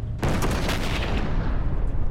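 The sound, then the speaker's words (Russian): A tank shell explodes beside a 45 mm anti-tank gun in a war film battle scene: after a brief quiet moment, a sudden loud blast breaks into heavy, sustained rumbling that stays strong to the end. “Выпущенный танком снаряд разрывается рядом с 45-кой.”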